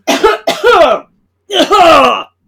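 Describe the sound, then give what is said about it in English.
A person coughs in loud, voiced, rasping bursts: two close together, then a longer one after a short pause, with no talk around them. “This is my time, so I need to cough. I've been holding it in this whole time, but now it's my time”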